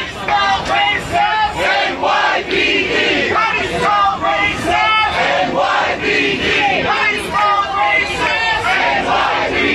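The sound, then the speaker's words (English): A street protest crowd in New York City, after a grand jury returned no indictment in a homicide case, chants loudly and rhythmically. Many voices shout in unison, steady and dense throughout with no pause. “That was the sound of one of many protests that sprang up around New York City Wednesday”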